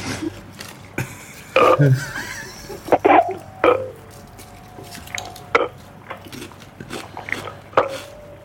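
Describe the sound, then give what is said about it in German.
Burping used to say the digits of a number on a phone call: several short, rough belches at irregular intervals over a noisy line. “Du sollst doch nicht reinrülpsen.”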